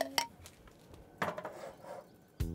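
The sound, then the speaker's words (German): A pot with a clay lid, holding a filling with butter, lemon juice and vegetable broth, is set onto a kitchen stove. A few faint, separate clinks and knocks of cookware break a quiet background. “Das kommt jetzt auf den Herd, damit die Füllung gar werden kann.”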